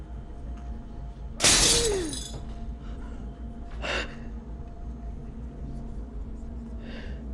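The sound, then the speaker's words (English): A glass mirror above a sink shatters in one sudden loud crash with a bright splintering burst, then the noise drops back to quiet with a couple of softer sounds afterward. “As she lifts up her hand to re-examine her fingers, the glass mirror above the sink shatters.”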